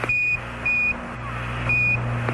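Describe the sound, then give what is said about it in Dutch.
Short, pure high beeps from a NASA Quindar tone on the communication line between astronaut and mission control. Several brief tones sound evenly over a steady low hum and hiss. “Dat is het geluid van de NASA Comcheck. Het piepje dat te horen is op de communicatielijn tussen de ruimtevaarder en het commandocentrum.”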